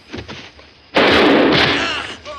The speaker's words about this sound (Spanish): Saca otra pistola y dispara a los demás. Tira la muleta a otro que le va a disparar, pero falla.